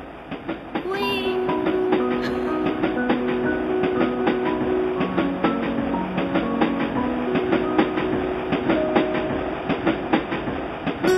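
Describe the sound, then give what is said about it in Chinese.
A small train runs on rails with a steady clickety-clack, many regular wheel clicks over a continuous rumble. Sustained tones drift above the rhythm throughout. “小火车”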